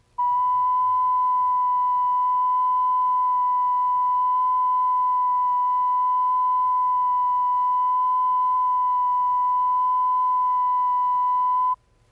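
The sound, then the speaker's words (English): A steady 1,000 cycle test tone, used to check a turntable for flutter and wow, holds one unwavering pitch for nearly the whole clip before cutting off. A faint low rumble sits underneath. “Here again is a 1,000 cycle tone.”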